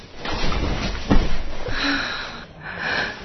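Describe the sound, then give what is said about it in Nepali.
Heavy, labored breathing of a person who has just walked, with a few loud, breathy inhales and exhales carrying a faint wheezy, sniffing edge. “कस्तो सास बढेको तपाईँको, सधैँ यस्तै हो कि अहिले मात्रै?”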